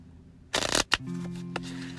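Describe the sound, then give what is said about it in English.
Shuffling of an oracle card deck: a brief, loud papery riffle of cards followed by a quick sharp snap, then a soft steady low tone lingering underneath. “I am shuffling up the Sacred Self, Sacred Melanin deck, looking for a message from Spirit to come through”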